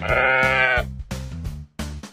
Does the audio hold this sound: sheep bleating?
yes